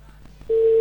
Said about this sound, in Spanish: Te estamos llamando.